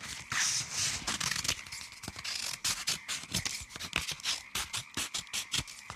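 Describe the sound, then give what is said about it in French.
Scissors cut rounded shapes out of a thin material that tears easily. Many quick, faint snips and scraping strokes follow one another in a steady, irregular stream. “Maintenant, je prends les ciseaux. Et c'est parti. Je découpe tout ce qui est arrondi.”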